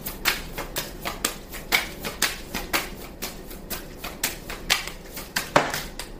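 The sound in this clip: Tarot cards being shuffled and drawn from a deck: a quick, steady run of many crisp, papery taps and flicks, fairly quiet and with no voices.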